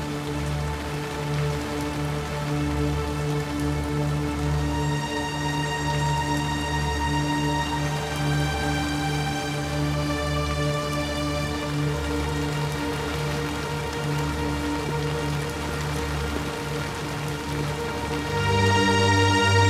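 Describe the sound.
Heavy rain pouring at night during a funeral, a steady dense hiss that runs unbroken throughout with a sustained tonal hum beneath it, growing slightly louder near the end.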